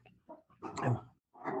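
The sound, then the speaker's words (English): Dogs barking at a squirrel in their territory out in the country: a few short, harsh barks, then a longer, louder noisy burst. “my dog's just, we live out here in the country and they think that a squirrel is in their territory. So they just kind of startled me there.”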